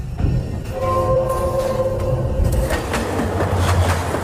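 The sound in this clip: Train running on rails, heard as a steady, loud, unbroken rumble with broad noise that holds at an even level throughout.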